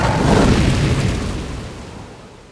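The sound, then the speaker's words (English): A roaring blast of fire as a dragon perched on a tower spire blows a towering pillar of flame skyward. A loud, broad whoosh starts at full force and steadily fades away over about two seconds. “The dragon circled its way to the top of the tallest tower, landed on the spire, and blew a pillar of fire hundreds of feet into the sky.”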